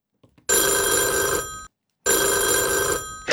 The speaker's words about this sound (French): Adrien de la Datcham disait ça sonne comme un portable qui est en Angleterre